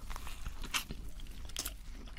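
Crunchy bites and wet chewing of a Burger King burger, with a few sharper crunches standing out over steady mouth sounds.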